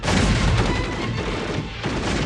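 Gunfire after an order to fire: a dense, continuous roar of noisy blasts that blurs into one loud wall of sound with no distinct separate shots.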